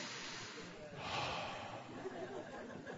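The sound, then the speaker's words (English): A church audience takes a deep breath together, a broad hissing swell of many breaths that rises to a peak and then slowly eases off. “And we're all going to take a deep breath together. Ready? 1, 2, 3.”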